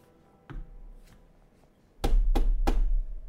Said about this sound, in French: Un homme, du moins vous supposez, toque à la porte.